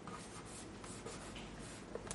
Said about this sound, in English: And he said these three things. I'll write them on the board.